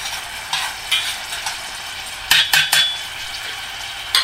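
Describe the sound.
Utensil scraping and clinking in a pan as finely chopped onion is stirred while it fries. Several sharp, irregular clinks and scrapes, some in a quick cluster, sound over a steady soft sizzle.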